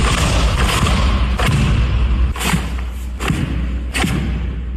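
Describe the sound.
Karate strikes and kicks land with dull thuds: a few sharp, loud impacts, spaced irregularly, over a steady rushing background noise.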